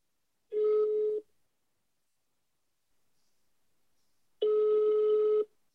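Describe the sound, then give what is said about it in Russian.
Ringback tones of an outgoing telephone call: two steady, buzzing tones separated by a long silence, each lasting about a second. “Ладно, давай Евгению звонить.”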